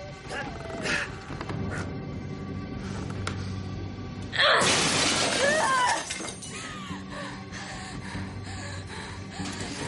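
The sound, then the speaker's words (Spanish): A glass display cabinet holding surgical instruments is smashed, a single loud crashing shatter of breaking glass lasting over a second midway through. A low, steady background runs before and after. “rompe una vitrina con material quirúrgico y toma un bisturí de su interior.”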